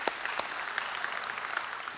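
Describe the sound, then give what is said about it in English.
Congregation at a church service applauding first-time guests: a soft, continuous patter of many hands clapping, with a few sharper claps standing out. “So in all our campuses, can we make some noise for our first time guest today?”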